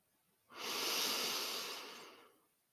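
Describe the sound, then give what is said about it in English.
A single long, breathy inhale during a guided bedtime meditation: a soft airy hiss that swells quickly, holds, and then fades out slowly over about two seconds, with nothing else around it. “We're going to breathe in”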